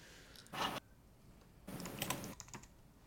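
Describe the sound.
Typing on a computer keyboard during an online multiplayer game: two short bursts of quick, quiet key clicks separated by a pause.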